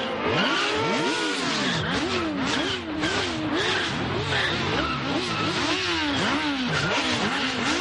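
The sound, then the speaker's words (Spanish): Motorcycles chase a car through a street in an action film scene, their engines revving in loud, repeated rising and falling whines that overlap continuously. “Salen a una calle. Los esbirros en moto van tras ellos.”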